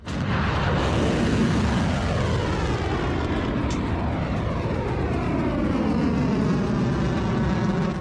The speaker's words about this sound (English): The launch of the Khyber Shaykan medium-range ballistic missiles that are being launched, in this case, at Muwaffaq al-Sulti in Jordan.